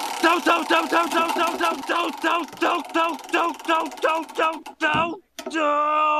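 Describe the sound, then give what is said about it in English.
A spinning prize-wheel sound effect: a quick, even run of about a dozen bright tonal blips that fades into a short downward sweep and ends on a sustained tone. “we're going to need that good old Wheel of Random. Let's give it a spin to see what season we're in.”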